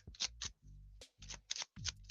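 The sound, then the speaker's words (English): Brisk shuffling of a deck of oracle cards: a few quick papery riffling bursts with soft thumps from the cards, fairly quiet and with short pauses between them. “let's get the 40 Servants Oracle. Ooh, these cards are jumping too.”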